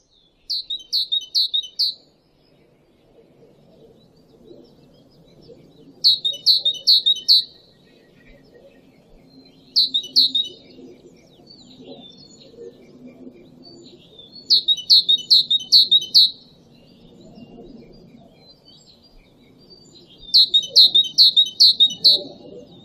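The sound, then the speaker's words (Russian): A tit sings five bright, high-pitched phrases of quickly repeated notes. Each burst lasts a second or two, with quiet gaps between them over a faint, low background rumble. “Синица.”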